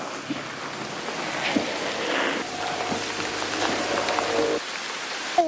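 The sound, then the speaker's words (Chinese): Heavy rain pours steadily over a sweet potato field during a rainstorm, a dense, even hiss of drops that stays constant throughout. “这场暴雨的话，可能会持续的时间比较长，也比较大。”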